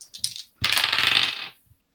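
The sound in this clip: Coins drop and clatter as 34 of them are counted out, opening with a few light clinks and then building into a bright, dense jingling run that fades to a final small clink.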